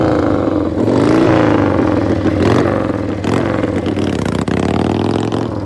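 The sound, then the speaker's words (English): A 1928 Chief motorcycle engine in a racing frame, with no clutch, roars loudly and revs steadily at a vintage dirt-track race, its pitch swelling and easing with each throttle blip, with a rattly mechanical clatter underneath and no voices. “No clutch. Just grab it and put it in gear and fire it up and go. The 1928 Chief engine”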